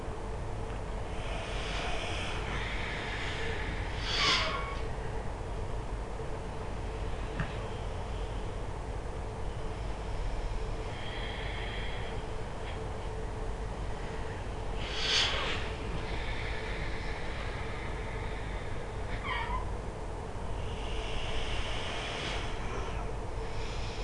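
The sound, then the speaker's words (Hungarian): Breathing exercise with forceful exhalations and deep inhalations: a few sharp, breathy bursts spaced far apart over a steady background hiss, with softer drawn-in breaths between them; no speech. “erőteljesen kilélegzünk, de nem görcsösen, nem kell görcsösen, ugyanakkor lendületesen kilélegzünk, és mélyen belélegzünk.”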